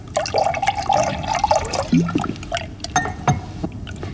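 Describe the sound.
Wine poured into a glass during a toast at a dinner with bosses: a steady liquid stream with a sustained ringing tone, followed by a few soft splashes and drips.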